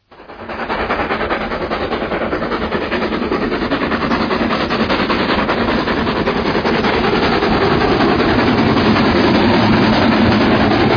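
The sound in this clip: An express train running: a loud, steady rumble with rapid rattling clatter that swells up within the first second and then holds throughout.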